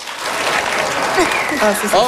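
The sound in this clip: Audience applause, steady and loud, answering a show-of-hands question, with voices calling out over the clapping.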